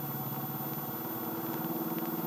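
A car engine being driven fast: a steady, droning motor hum with a rough, buzzing tone that holds at an even level throughout, with no voices.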